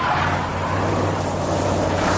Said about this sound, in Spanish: Jesse se monta en el coche y arranca.